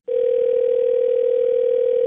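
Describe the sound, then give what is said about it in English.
A telephone dial tone after the caller has hung up: one loud, steady, unbroken tone at a single pitch that holds evenly for about two seconds and then cuts off. “Hello? Hold on. This is Scottman. I believe we were disconnected. No, I hung up.”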